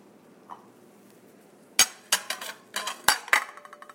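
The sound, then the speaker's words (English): A utensil clinks against a bowl as food is scooped in. After a quiet start with one faint tap comes a rapid, irregular run of sharp, bright clinks and knocks that rings briefly after each hit. “And, I'm gonna start scooping into said bowl.”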